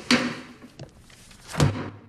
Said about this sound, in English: He slams the book shut.